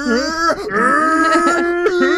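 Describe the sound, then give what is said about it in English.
A man's voice imitating a Super Saiyan power-up scream. A strained, sustained, groan-like yell is held through the whole clip, with wavering pitch and a couple of brief breaks. “when I saw that video of that guy going Super Saiyan. Oh, and he takes off his shirt. Yeah. He's this like skinny black teenager kid. And he's like, I am a Super Saiyan. And he starts going like,”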